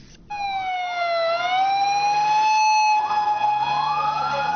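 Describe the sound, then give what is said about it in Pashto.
An ambulance siren wails as the vehicle heads to the scene of a bomb blast in Lahore, its loud tone gliding down and then climbing again in slow sweeps over a low engine rumble. “به دنبال انفجار نیرومند در لاهور، ده ها امبولانس به محل رویداد حرکت کردند.”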